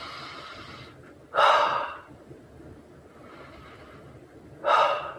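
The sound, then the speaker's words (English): Breathing from someone pausing to take calm breaths: two loud, airy breath sounds, each lasting about half a second, separated by a long quiet stretch with no talking. “Just breathe for a few seconds.”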